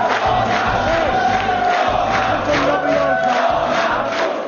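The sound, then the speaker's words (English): Crowd cheering at an opposition party headquarters in Poland after election exit polls, a loud, dense roar of many voices that carries on without a break throughout. “That was the sound of celebration on Sunday evening at the opposition party headquarters after exit polls”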